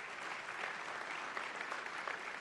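An audience at a religious gathering applauds with steady, dense clapping that runs unbroken through the whole stretch, fairly quiet and with no voices standing out.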